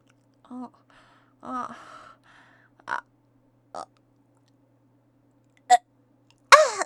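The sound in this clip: Gagging noises come from someone licking a thick, bumpy vegetable. They are short, faint throaty retches and gasps, several separate bursts with silence between them.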